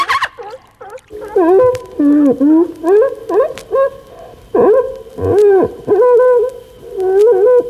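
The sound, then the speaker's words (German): Dolphin calls: many swooping, hooting tonal cries with bright harmonics, bending up and down in pitch in a quick, irregular run, loud and clear with no voices over them. “Ein jeder kennt ihn, den klugen Delfin.”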